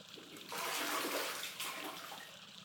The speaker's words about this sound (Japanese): ほら、この露天風呂のお湯ってとっても気持ちいいんですよ。